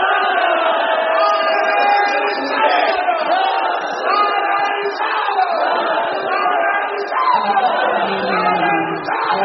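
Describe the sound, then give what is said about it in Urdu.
A crowd shouts the takbir slogan in response to a call, a loud, sustained mass of voices chanting together that barely dips for the whole nine seconds. “نعرہ تکبیر”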